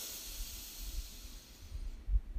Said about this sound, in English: So deep breath in and out. Deep breath in